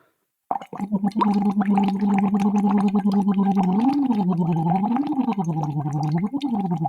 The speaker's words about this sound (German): was man dann macht, ist, man macht ein U in den Schlauch auf einer gemütlichen Stimmlage.